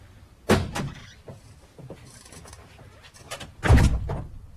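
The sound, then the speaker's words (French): Knocks on a door in a French radio drama, heard as two heavy, dull thuds a few seconds apart over a quiet background, with no voices. “C'est à la porte qu'on frappe, et une voix distincte ne tarde pas à succéder au coup.”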